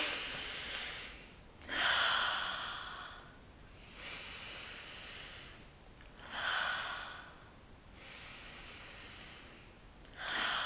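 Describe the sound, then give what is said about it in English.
Three slow, deep breaths, each a long breathy inhale followed by an exhale, in a steady calm rhythm with no talking. “So we're gonna do three deep breaths”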